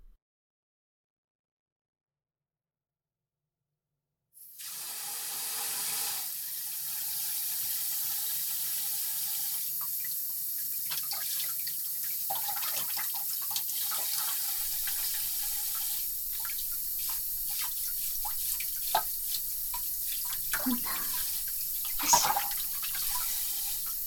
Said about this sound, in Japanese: では洗い流していきますね。